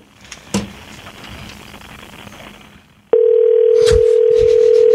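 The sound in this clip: A telephone dial tone sounds while a call back is being placed. After a few seconds of hissy line noise and a click, a steady, loud, unbroken mid-pitched tone starts and holds to the end.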